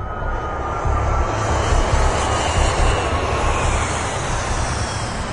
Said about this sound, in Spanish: Cuando el avión aterriza en Cebu, Yusef